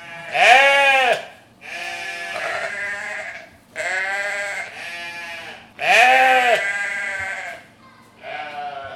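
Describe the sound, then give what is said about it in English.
Goats bleating as a sound effect: several long, wavering, nasal bleats follow one another with brief gaps, loud and harmonically rich, some rising and falling in pitch. “And if ever there was an episode that really needed one of my rubbish sound effects, I think it is this episode, the sound of goats.”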